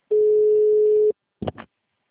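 A phone call rings once with a single steady tone lasting about a second, then the call is forwarded to voicemail. After a short pause, two brief, choppy bursts of sound follow.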